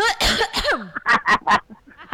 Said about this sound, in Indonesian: Langsung batuk aku kan.